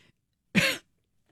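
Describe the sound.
A single short throat-clearing burst from a person who has just inhaled something, one rough, sharp event of about a quarter second, standing alone with quiet before and after.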